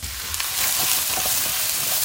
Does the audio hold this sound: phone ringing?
no